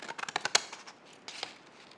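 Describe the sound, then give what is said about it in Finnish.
Right-handed Fiskars scissors cutting: a quick run of crisp, faint snips, then a short pause and a few more scattered cuts. “Ainakin sakset täytyy äänittää. Fiskarsin sakset, oikeakätisten.”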